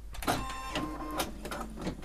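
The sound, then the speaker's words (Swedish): An embroidery machine stitching a name runs with a steady mechanical whir and fast, rhythmic needle ticking that pulses in quick bursts at moderate loudness. “nu har jag ställt in namnet på maskin och satt centimeter och allt, så nu ska vi kolla att den broderar.”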